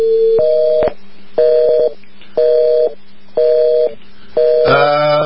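An international phone call to Pakistan rings unanswered: five evenly spaced electronic ringback tones, each a steady pitched beep about half a second long with short pauses between, the last one harsher and richer.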